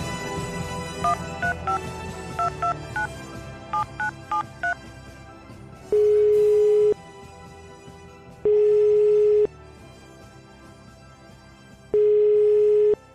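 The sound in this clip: Phone keypad dialing tones followed by the ringing tone of an outgoing call: a quick run of short beeps, then three long, steady, mid-pitched tones with even silent gaps between them, with no voices.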